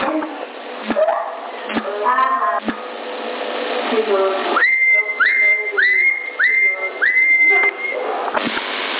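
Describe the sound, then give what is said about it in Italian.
Someone whistling over a CB radio channel, heard as a thin, band-limited transmission. A few sharp clicks and garbled sounds come first, then a run of short, rising whistle notes, ending in one longer held tone. “Chi è che fischia?”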